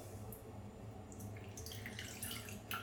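Running water washes urine away in a bathroom, a faint, steady hiss of flowing liquid with soft splashes throughout.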